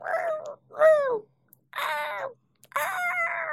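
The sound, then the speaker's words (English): Harsh squawking calls in a desert, four drawn-out cries with wavering, bending pitch, each separated by a brief silence. “You can hear the birds squawking.”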